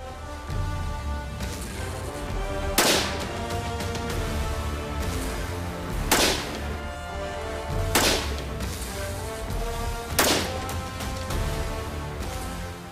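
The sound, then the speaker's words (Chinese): Gunshots from a firearm fired without a suppressor: a few loud, sharp cracks spaced seconds apart over continuous background noise. “所以我们先在不安消音器的情况下进行射击”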